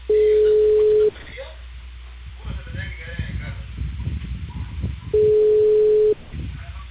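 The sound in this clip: Two steady mid-pitched telephone calling-tone bursts, each about a second long and several seconds apart, with soft rustling and low background noise in the gaps between them.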